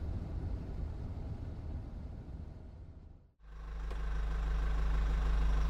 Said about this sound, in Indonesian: Mobil ini kita pinggirkan tepat di seberang rumahmu.